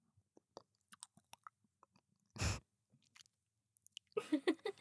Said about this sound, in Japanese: バイノーラルマイクの耳元で蜂蜜を舐めるところを凝視